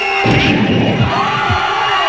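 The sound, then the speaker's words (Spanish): An agitated crowd shouts as a mob goes wild and drags a woman toward it, a dense, loud, continuous roar of many voices yelling at once without letup. “han agarrado a Carla y le están arrastrando hacia la muchedumbre. ¡Se están volviendo locos!”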